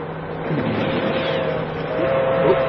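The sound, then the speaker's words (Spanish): A long, fast passenger train draws alongside a truck after a curve, heard as a steady, dense rushing roar that swells slightly toward the end. “Después de una curva, un largo y veloz tren de pasajeros se aproxima al camión de los samuráis y se empareja a él.”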